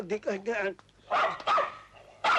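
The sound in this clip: Dog barking during a wedding ceremony: a few quick, bright barks in a row, then louder, noisy bursts with pauses between them.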